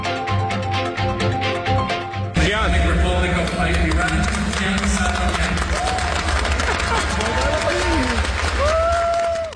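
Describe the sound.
An audience applauds and cheers as the champion of a Physics Olympiad is announced. Dense, continuous clapping swells louder after about two seconds, with shouting voices mixed into the crowd noise.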